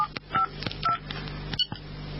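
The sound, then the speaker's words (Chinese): A phone number is dialed on a mobile phone: a few short electronic keypad tones sound, spaced irregularly, with soft taps and clicks between them. “随后用手机拨了一个号码”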